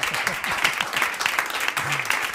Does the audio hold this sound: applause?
yes